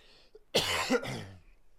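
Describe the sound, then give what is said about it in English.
Coughing and throat clearing from someone with pollen caught in the back of the throat. A short, sudden harsh burst leads into a longer, rasping voiced clearing, loud and on its own against quiet. “Got a big old pollen ball just hit me in the back of the throat.”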